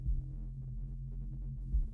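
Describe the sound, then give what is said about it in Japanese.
A person's own heartbeat, heard as a few low, dull thumps over a steady deep rumble, with no voices. “鼓動の音、私の心臓の鼓動の音、”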